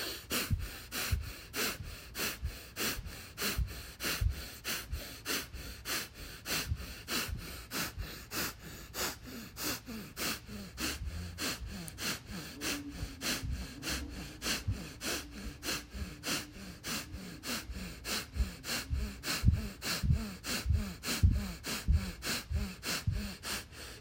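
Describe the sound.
Rhythmic deep breathing exercise: many quick, forceful breaths pulse in a steady, even rhythm for the whole stretch, each a short airy rush of moderate loudness, with no talking.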